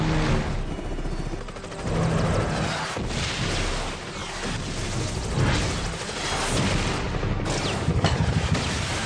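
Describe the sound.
Airstrike-mode explosions in a racing video game form a dense, loud barrage of booms and blasts. They roll on without pause throughout, with a few sharper bursts rising above the din.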